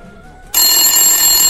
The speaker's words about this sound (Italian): scusatemi, squilla un attimo il telefono